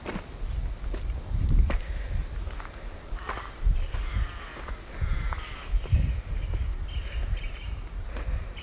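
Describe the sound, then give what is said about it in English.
Footsteps crunching uphill on dry, loose gravel along a steep, winding path, a steady series of gritty scrapes and slides at an even walking pace. “But it also sounds different, it's much drier. In fact, it is so dry that it's quite difficult to walk up without rolling on the gravel.”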